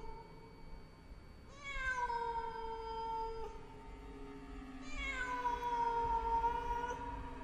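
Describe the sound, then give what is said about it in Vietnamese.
A black cat yowls mournfully from a windowsill at night, giving two long, drawn-out, wavering cries over a low background hum. “Có con mèo đen từ đâu nhảy đến ngay bên bậu cửa sổ, kêu lên mấy tiếng thảm thiết.”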